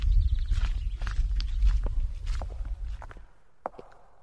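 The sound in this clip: Footsteps of people walking into an art museum: a run of steady steps over a low rumbling background that quiets down partway through, leaving one clear, isolated step near the end.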